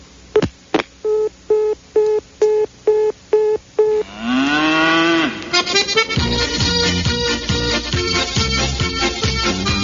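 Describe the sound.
A black cow gives one long, low moo that rises and then falls, following a run of repeated electronic telephone-like tones. Loud music starts right after the call.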